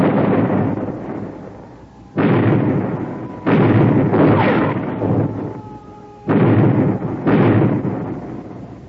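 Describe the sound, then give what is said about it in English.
A ship's cannons fire a broadside in heavy, deep booms. Six blasts come at uneven intervals, some close together, and each rolls off slowly into the next. “Give them another broadside. Pound them, lads. Pound them.”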